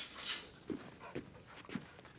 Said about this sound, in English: My other dog. She's right there.